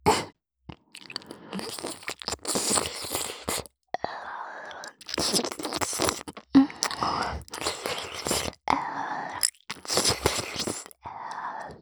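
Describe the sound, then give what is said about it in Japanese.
Wet, close-up mouth sounds of ear-eating ASMR with soft kisses, licks and crunchy smacks, coming in bursts separated by short pauses and mixed with faint whispering. “こっちのお耳も食べちゃいますよ。”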